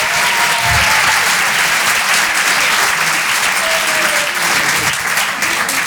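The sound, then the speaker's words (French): A theatre crowd at the Apollo Théâtre, Paris, applauds a stand-up comedian, producing a thick, continuous wash of clapping that stays loud and even throughout, without a clear break or distinct voices. “Sur la scène de l'Apollo Théâtre à Paris. Et en direct sur Rire et Chanson dans toute la France. Faites du bruit s'il vous plaît pour Certes Mathurin.”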